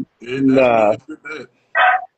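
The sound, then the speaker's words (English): A dog barking and whining in loud, tonal bursts: one long, wavering yowl followed by three shorter barks, with brief silences between them. “my dog back here barking shit.”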